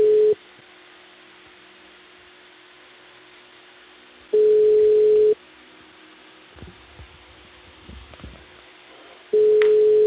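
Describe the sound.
Telephone tone on a line after a dropped call: steady mid-pitched beeps about a second long recur roughly every five seconds, with three heard, counting partial ones, and faint line noise and small clicks in the gaps.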